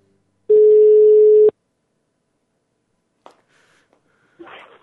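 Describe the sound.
A telephone tone sounds while a call is being placed: a single loud, steady electronic beep lasting about a second, then near silence broken by a few faint, brief rustles.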